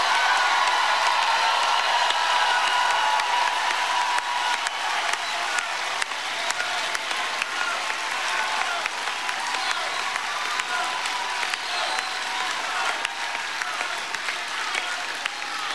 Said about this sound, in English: What are they chanting? It sounds terrible.